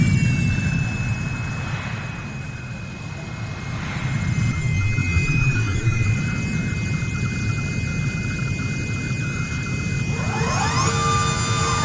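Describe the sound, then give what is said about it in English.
A space shuttle lands on a flight deck with a steady jet-like engine roar and a sustained high whine. Wavering tones sweep in near the end. “Clear the deck. Clear the deck. Shuttle inbound. Decompression alert. Clear the deck.”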